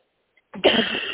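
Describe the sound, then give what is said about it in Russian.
A person with an irritated, scratchy throat coughs after a moment of silence: an abrupt, harsh, throaty burst that trails into a raspy tail. “Ты прям кашляешь, так кашляешь.”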